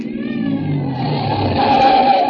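A car being driven toward a bend in the road gives a steady, low engine rumble with a faint thin whine on top. It stays continuous and fairly loud throughout, with no voices.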